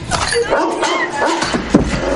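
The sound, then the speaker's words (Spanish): An angry dog barks furiously in a dramatic thriller scene, giving a few sharp, loud barks in quick bursts. “El perro furioso ladra a Gloria.”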